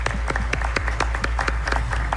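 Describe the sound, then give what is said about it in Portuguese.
Applause for the priests at a church gathering, with sharp, distinct individual claps from a modest group ringing out irregularly over a low steady hum. “Uma salva de palmas aos nossos sacerdotes.”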